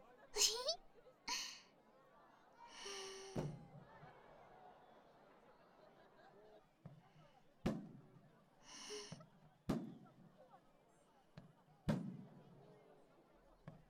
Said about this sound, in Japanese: あ、ちょうど始まりましたね。あー、花火綺麗ですね。